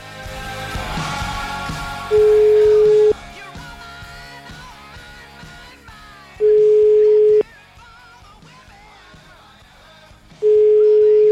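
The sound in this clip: Telephone ringback tone heard while placing a call: three steady beeps at a single mid pitch, each lasting about a second and spaced roughly four seconds apart, sounding clearly over a quieter background.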